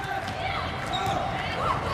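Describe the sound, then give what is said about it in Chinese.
A volleyball is bounced on the court before a serve during a match, its dull thuds mixed into steady crowd noise while a commentator talks. “龚翔宇来发球，”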